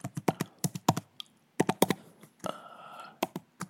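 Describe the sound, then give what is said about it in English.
Rapid typing on a computer keyboard as a password is entered: quiet, crisp keystroke clicks in two quick bursts separated by a short pause, with a few more taps at the end. “Okay, I'll just type in this and I'll go like that.”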